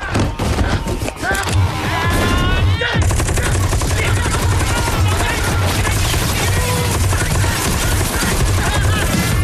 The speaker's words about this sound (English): They shoot up the bar with their automatic guns.